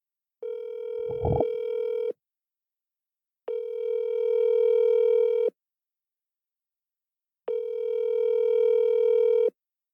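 An outgoing phone call rings out with three long, steady ringback tones, each about two seconds long and separated by clear silences. A brief low knock sounds during the first tone.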